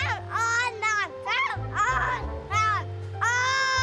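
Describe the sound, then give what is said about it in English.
A toddler by a garden fence gives a string of high-pitched, voiced shouts in quick succession. Their pitch swoops up and down over a low, steady hum. “The toddler, who has sashayed all the way along the fence now, is shouting at me,”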